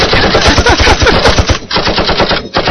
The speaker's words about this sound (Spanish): Un balazo, señor. Pobre. La señora no escuchó el balazo. Si no fue un balazo así. Una escopeta.